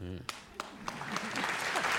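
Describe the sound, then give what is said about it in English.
Audience applause swells after a brief voice at the start, becoming a dense, steady wash of clapping that grows slightly louder and holds to the end. “I hope you're not applauding that!”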